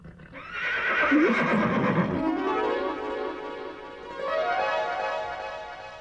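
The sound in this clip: A horse neighs loudly in a long, wavering whinny that fades slightly and then swells again near the end, heard alone without talk.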